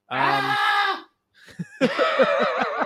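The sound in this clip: A single loud, strained scream held for about a second, harmonic and piercing. After a short silence a person starts talking.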